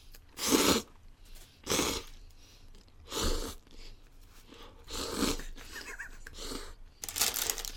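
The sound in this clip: Slurping and chewing of instant Donbei udon noodles, a series of loud, noisy bursts separated by short quieter gaps, with no talk over them.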